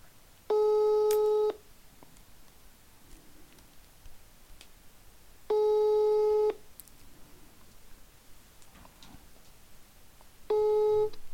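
A telephone line tone sounds during an outgoing call that goes unanswered: three steady beeps, each about a second long, spaced roughly five seconds apart over faint background noise.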